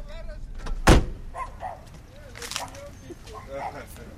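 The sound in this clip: A car door shuts with one sharp, loud thud as people get out of a parked car in front of a home. Voices talk before and after it.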